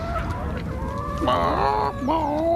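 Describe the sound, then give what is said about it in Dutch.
Chickens clucking softly, a flock of contented hens spread over open ground, giving several drawn-out, tonal clucks and murmurs in overlapping calls over a steady background hiss. “Heerlijk geluid, gelukkige kippen.”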